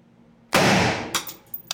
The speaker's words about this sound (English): This one's going to be a little bit louder. Now, look at the AR-15 round.